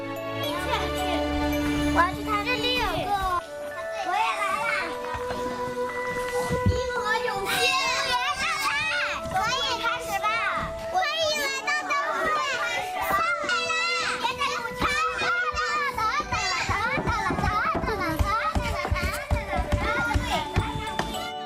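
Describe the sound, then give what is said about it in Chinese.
Children laugh and play in a courtyard while carrying lanterns they made, a continuous busy tumble of kids' chatter, shrieks and giggles, with several young voices overlapping throughout. “嬉笑玩闹间，孩子们无暇顾及自己手里的灯笼。”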